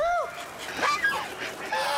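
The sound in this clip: Geese honk on a small farm plot in Shunde that also raises chickens, ducks and fish. A few nasal, wavering honks overlap one another at moderate volume against faint background noise.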